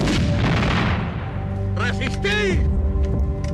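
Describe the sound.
Cannon fire from an artillery piece in a Carlist War battle: a loud broad blast that rolls and fades over about a second and a half, followed by a raised voice shouting.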